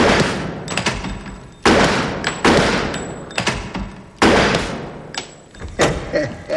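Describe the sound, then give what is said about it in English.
Gunshots ring out during a shooting training exercise: several loud, sharp bangs at irregular intervals, each followed by a decaying tail, with quieter knocks between them. “I shot all the criminals. And you also shot an innocent bystander and a hostage.”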